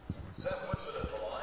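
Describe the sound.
A basketball bounced before a free throw during a Farmington vs Fox game, four dull low thumps in a steady rhythm, faint beneath voices and crowd noise.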